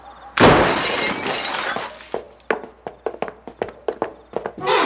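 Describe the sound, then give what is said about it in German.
Glass shattering as a broken cellar window is forced open, a loud crash of breaking glass followed by many sharp, regular knocks and impacts. “Da, das Kellerfenster ist kaputt. Ja, das sehe ich, aber da kommen wir nicht rein. Los, aufbrechen!”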